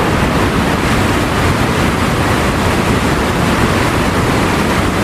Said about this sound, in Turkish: Görüntüler Arjantin ile Brezilya sınırındaki Iguazu şelalelerinden.